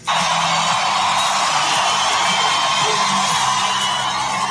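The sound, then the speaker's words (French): A crowd of about 15,000 fans gives an ovation as Lewis Hamilton appears on stage at the O2 Arena, London. The roar is loud and sustained, with whoops and cheers running throughout. “Cette ovation, c'était à Londres, il y a 10 jours, lorsque Lewis Hamilton s'est présenté sur la scène de l'O2 Arena devant 15 000 fans.”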